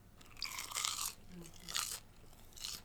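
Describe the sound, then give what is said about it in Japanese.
Crunchy chewing of a honey butter garlic snack with a cheese and honey flavor, heard as a few loud crisp crunching bursts separated by quieter chewing, with no talk. “ガーリックはじゃああんまりほのかにガーリックなのかな。ほのかにガーリック。うんうんうん。さえハニバターガーリック食べよう。”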